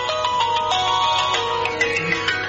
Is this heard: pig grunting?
no